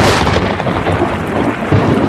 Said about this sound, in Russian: О, какая молния! Гром какой!